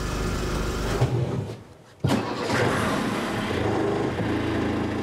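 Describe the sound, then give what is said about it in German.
An engine running with a newly installed gearbox, a loud, steady mechanical roar. It dips briefly near the middle, then cuts back in sharply and runs evenly to the end. “Kurz vor dem Abendbrot ist das neue Getriebe eingebaut. Es läuft wie geschmiert.”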